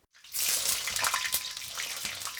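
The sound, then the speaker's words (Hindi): Eggplant pieces hit hot oil and fry. A loud, bright hiss bursts in after a brief silence and keeps up a steady sizzle with small crackles throughout. “तो जब तेल सही तापमान तक गर्म हो जाए तब बैंगन के टुकड़े डाल दीजिए।”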